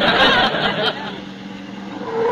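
A car pulling up at a ranch, its engine rumble loudest at the start, then settling into a lower, steady hum as it slows.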